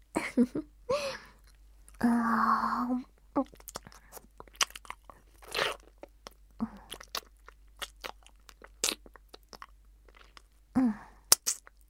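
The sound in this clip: Close, crisp crunching and chewing as a snack is licked and eaten, many irregular bites and wet mouth sounds, with a few longer crunches standing out.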